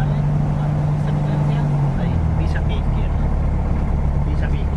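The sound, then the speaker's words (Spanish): A light aircraft's engine drones steadily as it taxis on runway 12, a low, even hum with a tonal note that dips slightly midway. A voice talks over the engine. “Ya estamos arrancando. Vamos rodando por la pista. Estamos girando. Ahora vamos a entrar en la pista ya.”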